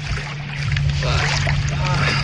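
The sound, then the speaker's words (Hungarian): A boat speeding up on windy, choppy water gives a steady rushing wash and splashing hiss with a low engine-like drone underneath, loud and continuous, with voices talking over it. “Most nagyon megy. Jó, jó gyorsul a hajó.”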